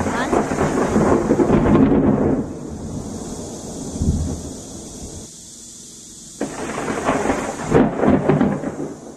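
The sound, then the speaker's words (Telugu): Sudden rain begins in a thunderstorm: a loud, dense hiss of downpour with deep rumbles of thunder. The rain eases for a few seconds, then swells again. “అయ్యో అయ్యో, ఇదేం ఉపద్రవం? Sudden గా వర్షం మొదలైంది”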